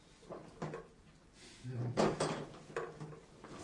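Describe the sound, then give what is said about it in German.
A hinged flap being shut again, a few short knocks and clunks of moderate loudness separated by quieter stretches. “Klappe wieder zu.”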